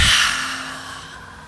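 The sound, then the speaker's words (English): A single airy breath during a breathing exercise, exhaled with a soft H. The hiss starts fairly strong and fades steadily over about a second and a half, with no voices. “Breathe in through your nose. Exhale with an H.”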